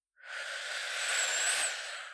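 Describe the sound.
A person takes one slow, soft breath in during a guided breathing exercise, a smooth airy inhalation lasting about two seconds that swells gently and fades, heard alone without talk.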